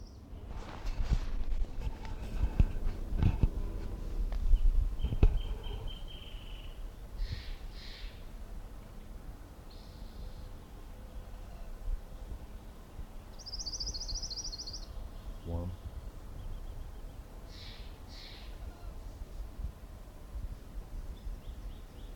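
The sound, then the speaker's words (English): Orange-crowned warbler song: a few short, high, faint trills spaced well apart, with some low thumps and handling noise near the start. “Orange Crown Warbler number one.”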